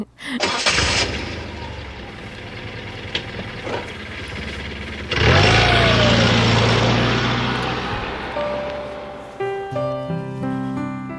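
A car engine starts up before driving off, a rough burst of noise swelling into a rev that climbs in pitch and then settles into a steady, loud running drone.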